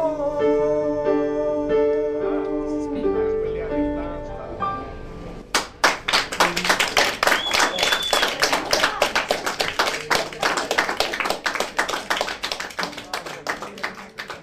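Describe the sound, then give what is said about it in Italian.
An audience in a town square claps after music ends, a long run of dense, sharp hand claps that slowly grows fainter toward the end. “Senti che pubblico che c'è in piazza.”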